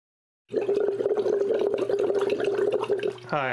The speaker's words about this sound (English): I'm playing Baldric, the Alchemist, and I am currently blowing bubbles into water because it is funny and I need liquid to drink.